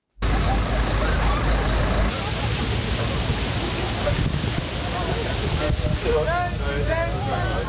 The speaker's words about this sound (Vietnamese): Tại Berlin, đây là âm thanh cảnh sát phun vòi phun nước vào đám đông đang tìm cách giải nhiệt khỏi cái nóng như thiêu đốt.